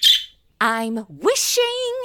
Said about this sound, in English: Don't you dare poop on my clean steps, bird! Please, I've seen you birds bathing in the wishing well.